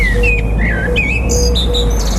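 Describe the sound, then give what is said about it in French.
A blackbird sings in a public garden with a few bright, whistled phrases that jump between pitches. The song sits over a steady low background rumble. “Le chant du merle, c'est magnifique. Hein, un merle devenu la mascotte du jardin public.”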